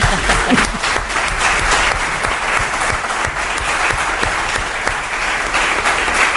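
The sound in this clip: Loud, dense applause from a group of people, a continuous, even rush of many overlapping claps that keeps steady for the whole stretch, with no talk over it.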